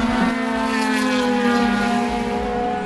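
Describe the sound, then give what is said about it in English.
Racing cars roar through the final Dunlop esses of the Le Mans circuit toward Tertre Rouge as a loud, continuous engine drone with a steady, buzzing tone that holds throughout. “That is the sound of the inside of the last of the Dunlop S's before the cars go towards Tetre Rouge and blast out into the forest.”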